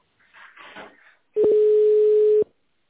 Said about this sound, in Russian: Пожалуйста, наберите в тональном режиме внутренний номер сотрудника или дождитесь ответа